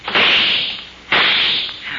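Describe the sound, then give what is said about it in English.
Gunshots fired at people lying flat after a door is broken in: two loud, harsh bursts about a second apart, each trailing off in a long hissing decay, with no talk. “They're shooting high. They can't see us.”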